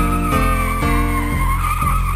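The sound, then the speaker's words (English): A hearse's tires squeal in a sustained, high, tonal screech over a steady low rumble, with regular thumps about every half second. “a hearse with its wheels a-squealing”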